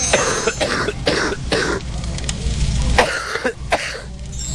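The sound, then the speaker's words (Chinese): A deep, heavy, phlegmy cough of stubborn spleen-related phlegm, repeated as a series of thick, throaty bursts with some throat clearing, heard on its own without talk. “顽痰在脾呀，它这个咳的声音应该是更往里了哈， 咳声或者痰声相对比较深一点啊，比较重浊一点 啊”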